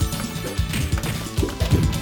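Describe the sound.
Punches and hits in an arcade fighting video game come as a rapid, dense stream of thwacks and crashes over busy layered game sound, loud and continuous.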